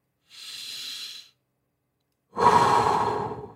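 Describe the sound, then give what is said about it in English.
Two long, deep breaths: the first is a thin, airy hiss lasting about a second, and after a pause the second is fuller, louder and breathier, with no talk. “Another deep breath. Breathe in. Another deep breath. Breathe in slower.”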